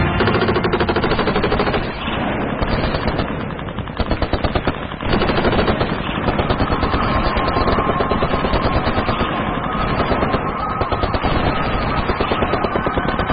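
Heavy machine-gun fire and gunshots form a hail of bullets as enemy forces attack guerrillas near sugarcane. Dense, rapid bursts run loud and almost unbroken through the whole stretch.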